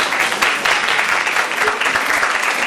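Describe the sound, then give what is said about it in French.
An audience applauds students with a steady burst of many hands clapping, dense and fairly loud, with no voices standing out. “Voilà, vous pouvez les applaudir.”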